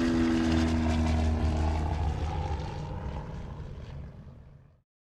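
A propeller airplane's engine roars steadily with a low, throbbing drone, then fades away to silence.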